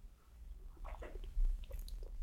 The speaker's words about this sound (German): Aber zunächst trinke ich ein Schluck Espresso.